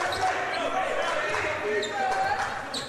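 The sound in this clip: A basketball is dribbled on a court during a game, a run of bounces under steady play-by-play commentary.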